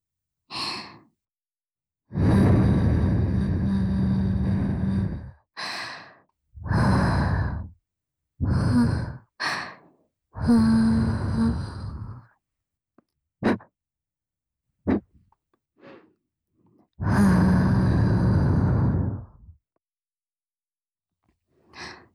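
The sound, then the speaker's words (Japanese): Gentle blowing into the ear during ear-cleaning care, heard as many soft, airy puffs of breath of varying length, some long and some short, separated by silence. “こちらも、右耳の時と同じように、お耳、ふうふうからしていきますね。”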